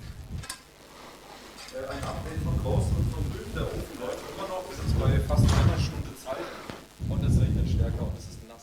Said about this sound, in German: Es regnet stärker draußen, leider.